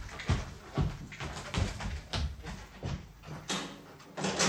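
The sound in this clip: A door is opened with several dull clunks and rattles from handling, spaced irregularly and fairly quiet.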